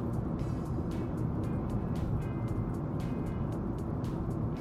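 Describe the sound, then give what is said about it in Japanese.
Heavy highway traffic with both the regular and passing lanes crowded: a dense, steady roar of engines and tire noise that never lets up, with no single vehicle standing out. “普通車線も追い越し車線も車が多い。”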